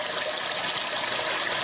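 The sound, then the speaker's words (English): Rushing water plays from a device in a Japanese restroom that mimics a continuously flushing toilet. The flow is a steady, unbroken hiss and gush at an even level, with no talk. “The solution? A device that mimics the sound of an ever-flushing toilet.”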